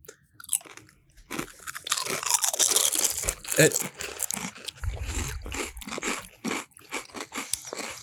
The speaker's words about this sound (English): I'm just going to get one chip because that's one chip. Are we going to do a synchronized taste here?